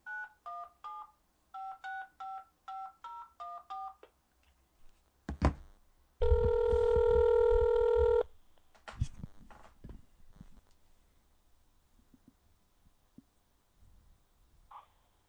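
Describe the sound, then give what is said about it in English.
A run of short touch-tone beeps dials a telephone number, followed by a few clicks and one sustained electronic ring tone about two seconds long, then scattered faint clicks and handling noise. “Hello? Hey, you rang? I was trying to reach Anna”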